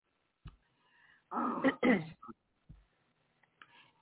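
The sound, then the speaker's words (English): A person who is choking after something went down their throat coughs and clears their throat. A few rough, harsh bursts cluster in the middle, and quieter clicks and breaths surround them. The whole passage is faint. “So, wait, I'm choking. I went down my throat.”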